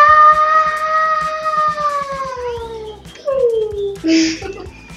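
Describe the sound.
A dog yelps after being kicked in the belly: long, drawn-out whining tones slide steadily downward in pitch, followed by a second falling whine and a short, sharp, noisy cry at the end.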